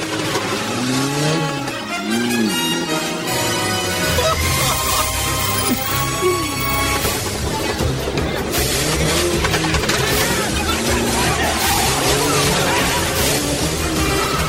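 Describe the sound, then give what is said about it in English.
A gray Chevette with a flashing yellow beacon on top revs and drives out. Its engine roars continuously beneath loud, dense music that fills the whole stretch. “From behind, he drives out in a gray Chevette.”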